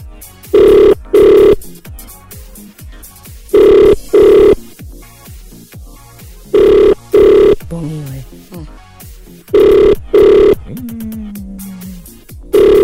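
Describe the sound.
Ringback tone of an outgoing telephone call: four loud double-pulse rings repeat at even intervals, with quieter background sound in the gaps between them.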